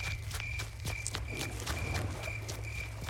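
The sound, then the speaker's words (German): Faint, quick footsteps of someone running away near sheds on a foggy night, with light, evenly spaced steps and a steady high tone running underneath. “Hast du das auch gehört? Da ist jemand weggelaufen.”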